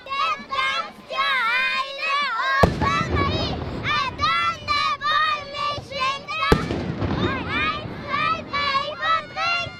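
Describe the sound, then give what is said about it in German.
Two sharp, loud ceremonial Böller salute shots crack at a festival on the Rhine bank in Basel, opposite the Minster, cutting through a steady chatter of excited children and crowd voices. “Die Böllerschüsse sind schon von weitem zu hören.”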